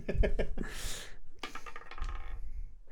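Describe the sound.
A die rolls across a tabletop with a short, rattling clatter, followed by more light tumbling clicks.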